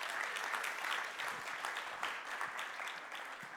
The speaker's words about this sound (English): So why don't you put your hands together as we welcome Terry this morning.